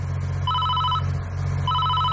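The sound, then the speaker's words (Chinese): A mobile phone rings with two bursts of warbling electronic tones separated by a short gap, over a steady low hum. “就在这时，他的手机响了”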